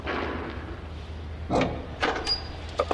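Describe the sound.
A door opens into a tool cupboard in a flesh-processing factory: a few dull knocks and scraping clatters over a steady low hum, with no voices.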